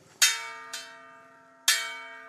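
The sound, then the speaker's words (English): A brass bell rung by the Munduruku chief in an indigenous territory in Mato Grosso to call a community meeting: three bright clangs, the second softer, each ringing on in a long, steady tonal decay. “At a 400-square-mile indigenous territory in Mato Grosso, the chief of the Munduruku tribe rings a brass bell to announce a community meeting with Paulo Nunes.”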